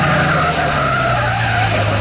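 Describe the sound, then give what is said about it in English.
A car skids to a stop during a chase, with a loud, continuous tire screech over a low rumble lasting the full two seconds. “Well, he stopped his car up ahead.”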